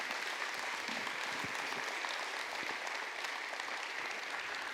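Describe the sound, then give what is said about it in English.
A church audience applauds to welcome a state representative coming up to speak. The clapping is steady and dense and continues throughout. “Would you welcome her as she comes to speak for just a moment here today?”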